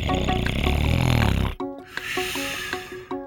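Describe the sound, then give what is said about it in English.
A breathing ventilator pushes air in and pulls it out, starting with one long, loud, raspy, snore-like whoosh. After a short break comes a quieter stretch with regular soft clicks and tones. “A ventilator helps push air in and pull air back out.”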